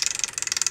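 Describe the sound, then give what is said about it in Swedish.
Amusement-park style prize wheel spinning: a fast, even run of many sharp plastic ticks, each a crisp click, repeating rapidly and fairly quietly. “Men nu har jag ett litet spännande hjul här. Har du sett det här förut? Jag har inte sett hjulet. Nej, det låter så här.”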